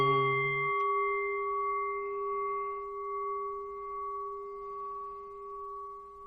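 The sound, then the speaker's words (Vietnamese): A temple bell rings with a sustained, resonant hum of steady overtones that fades only slowly. A soft strike sounds partway through, and no voices are heard over the ringing. “Chuông chùa vang vọng khắp muôn nơi, nhắc nhở trần ai”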